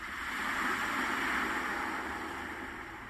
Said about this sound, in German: Drückt man einen der Knöpfe, ertönt Vogelzwitschern oder Wellenrauschen.